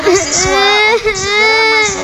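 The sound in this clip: A young child crying in a high, wavering, whining voice that runs loud and almost continuously, with a brief dip near the middle.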